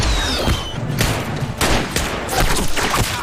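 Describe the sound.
Gunfire in a military action drama scene, fired on an order to shoot: a dense, loud volley of rapid sharp shots with heavy low booms underneath that keeps going without a break.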